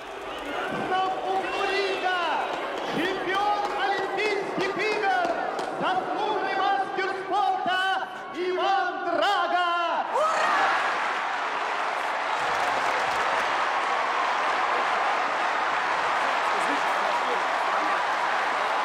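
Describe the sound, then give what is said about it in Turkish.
A boxing arena crowd roars for its champion. A voice speaks over quieter surroundings at first, then a loud, sustained wall of crowd noise takes over and continues evenly to the end. “Şampiyonlarına tezahürat yapıyorlar.”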